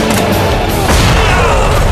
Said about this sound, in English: The blast sent bodies as limp as ragdolls flailing into the air, rending them apart with shrapnel and shockwaves. The detonation bit a sizable portion out of the hill and spit it skyward.